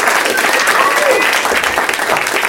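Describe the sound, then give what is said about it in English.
A live theater audience at the UCB Theater in Los Angeles applauds, dense loud clapping with a few scattered whoops, sustained evenly throughout. “Doug Loves Movies is coming to you from the UCB Theater in Los Angeles in front of a live audience! That's them.”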